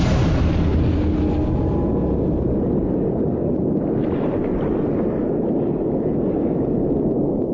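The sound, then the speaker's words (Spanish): An explosion shakes a bathyscaphe deep in an ocean trench under heavy water pressure, heard as a loud, dense, low-heavy rumbling roar. It starts at full strength and stays steady throughout with no pause. “De repente, una explosión sacude la nave. El ruido sobresalta a los dos tripulantes.”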